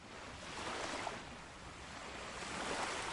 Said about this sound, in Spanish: No me gusta la playa. Todo este calor, la arena, el agua.